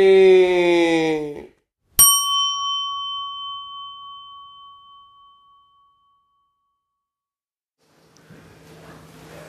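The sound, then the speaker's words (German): A single bright chime from a Mac computer's low-battery notification sounds once after a brief voice, then rings out and slowly fades over about four seconds before near silence. “bekomme hier gerade eine Nachricht von meinem Computer Batterie fast leer, ohne Stromzufuhr aktiviert dein Mac bald den Ruhezustand.”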